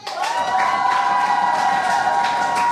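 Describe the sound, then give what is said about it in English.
Applause and cheering from a poetry slam audience saluting the poets, a dense, loud, sustained wash of clapping and crowd noise that holds steady throughout after a brief swell at the start. “I want to give them all a massive round of applause.”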